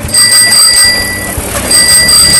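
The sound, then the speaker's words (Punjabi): A postman's bicycle bell rings in a village of old times, sounding in two spells of bright metallic ringing separated by a short gap, loud over a low background rumble. “ਪੁਰਾਣੇ ਸਮੇਂ ਦੀ ਗੱਲ ਕਰੀਏ ਤੇ ਪਿੰਡਾਂ 'ਚ ਬਹੁਤ ਸਾਰੇ ਲੋਕਾਂ ਦੀ ਖੁਸ਼ੀ ਦਾ ਕਾਰਨ ਇੱਕ ਘੰਟੀ”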